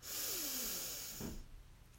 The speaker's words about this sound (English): Taking a deep, deep, deep, deep breath in. Breathe in.